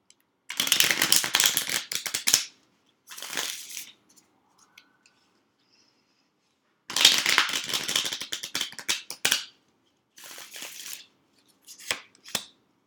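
Tarot cards being shuffled, heard as several bursts of crisp, papery riffling and rustling separated by short pauses. The bursts vary in length, and no voices are heard.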